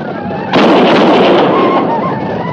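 A volley of gunfire erupts in battle after an order to fire. A sudden loud crack of many shots merges into a dense, sustained roar that fades only slightly over the remaining two seconds.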